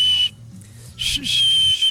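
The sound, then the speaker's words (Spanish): A man whistles three high, steady notes: a short one, another short one after a pause, then a longer held one. A low hum runs beneath. “Mis chiflidos, ¿se fijan?”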